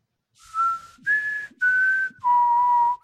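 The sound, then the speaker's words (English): A person whistles in imitation of an ancient tribal whistle: four sustained, steady notes with short gaps. The second note is slightly higher, and the last, longest note drops lower. The whistling is loud and alone. “as the ancient whistle of the Miyagani tribe opens the box”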